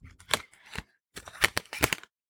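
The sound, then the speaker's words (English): A card is pulled from a deck with dry, papery swishes and rustles, a few quick scrapes in two groups separated by a short silence. “I'm just going to pull a random card. Let's see what it says. Okay, so I happen to pull,”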